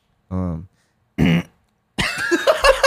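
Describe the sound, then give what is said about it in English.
A man lets out gym-style grunts after a chest workout: two short, strained, voiced grunts separated by silence, followed by louder rough vocalizing and talk. “what kind of grunts are you letting out at the gym? Let me see. I just did chest and I was grunting like a motherfucker.”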